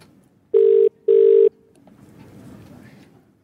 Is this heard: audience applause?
no

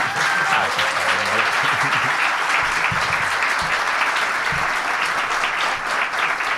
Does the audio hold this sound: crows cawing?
no

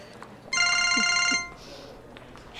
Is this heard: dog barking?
no

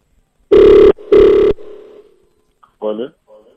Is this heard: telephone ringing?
yes

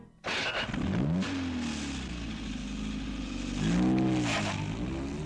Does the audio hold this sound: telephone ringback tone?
no

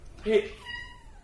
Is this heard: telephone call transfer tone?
no

